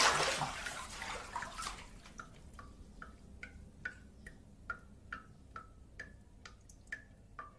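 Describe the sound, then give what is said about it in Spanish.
A tap drips water incessantly, many steady, evenly spaced drops, each a bright little plink, following a brief rush of water at the start; the drips are quiet and regular like a ticking clock. “Mientras el grifo enfocado en primer plano gotea incesantemente, el hombre se sienta.”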